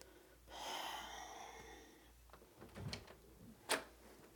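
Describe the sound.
A back door being opened: a soft, breathy scraping rush lasting over a second, followed by a few quieter knocks and a single sharp click near the end, all fairly faint with no voices.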